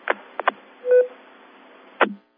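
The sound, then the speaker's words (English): A phone's text message alert sounds as a single short electronic beep. A few brief, noisy bursts come before and after it. “every time I set down my phone, they send me another text message”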